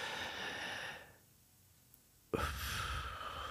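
A deep, airy exhale during a diaphragm breathing exercise runs for about a second and fades, followed by a short quiet pause and then another sharp, rushing breath.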